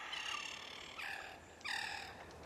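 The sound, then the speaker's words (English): Harsh, cawing cries from several large white birds flying overhead. Three raspy, harmonic calls come in succession over a faint background hiss. “Several large white birds fly overhead.”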